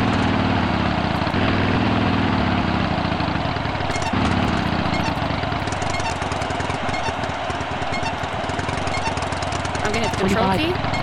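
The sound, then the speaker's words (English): A motorcycle engine roars loudly and steadily while the rider brakes and downshifts. The dense, rough engine noise runs throughout with slight shifts in tone. “I have more control over the bike that way. I'm gonna start braking and downshifting.”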